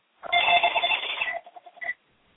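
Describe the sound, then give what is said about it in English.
A landline telephone rings alone at a fairly loud level: one long electronic trill, then a few shorter pulses, and then it stops. “Somebody got a phone ringing back there.”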